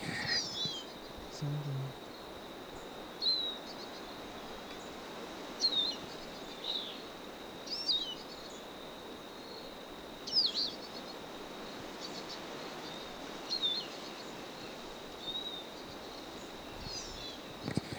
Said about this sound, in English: Stop. A bird.